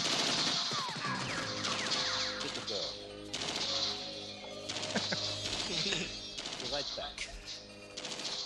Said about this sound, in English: Kill him! Oh, jump away from those bullets.